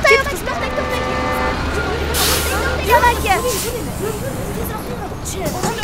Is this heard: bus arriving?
yes